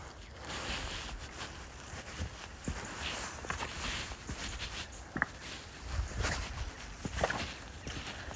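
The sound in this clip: Footsteps walking through a tricky, muddy section of a countryside walk, faint and uneven, with irregular steps under a steady wash of background noise.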